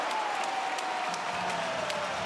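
Crowd at an Australian rules football stadium cheering and applauding after two quick goals in a Swans versus Adelaide Crows match, a steady, full roar that holds at an even level throughout.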